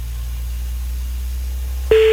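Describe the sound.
A car sound effect: a steady low engine hum runs throughout, and a sharp electronic beep cuts in just before the end.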